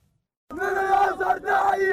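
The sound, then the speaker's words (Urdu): Protesters chanting slogans in Gaza City at a rally against the US president's plan to recognise Jerusalem as Israel's capital. Massed voices burst in loudly after a short silence, chanting in unison with a brief dip before resuming. “مظاہرین شہر غزہ میں جمع ہو رہے ہیں، وہ صدر Trump کے خلاف نعرے لگا رہے ہیں”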